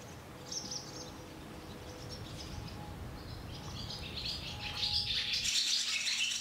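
Swallows chirp as they hunt insects on the wing in high summer: many short, high chirps scattered over a steady low background rumble, growing louder and denser toward the end.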